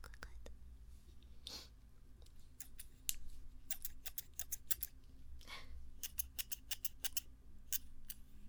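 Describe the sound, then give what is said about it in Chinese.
Crisp metallic snips of a pair of short scissors opened and closed with both hands, one hand on each handle, repeating many times in irregular bursts over a low steady hum. “然后我现在是用两个手，一边一个把手，然后来活动那个剪子，让你们听到声音的感觉好像。”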